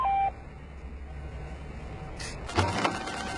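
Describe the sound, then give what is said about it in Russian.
A phone's new-message notification gives one brief electronic beep, followed by a faint low hum and a short rustling clatter. “Новое сообщение.”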